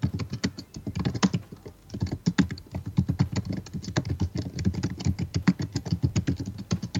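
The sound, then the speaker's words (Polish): Typing on a laptop computer keyboard: dense, rapid key clicks in an uneven rhythm continue steadily for the whole stretch. “No słychać, że piszesz, więc gdzieś tam powiedzmy w jakichś rozmowach na komunikatorach może to być trochę uciążliwe”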